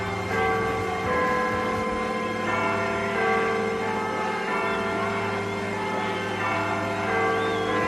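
Bells chime in the background of a rock song, ringing under dense, sustained instrumental tones that hold at a steady, moderate level throughout.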